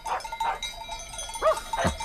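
Cowbells on a herd of livestock arriving, giving faint, scattered metallic clinks over a low, steady background noise.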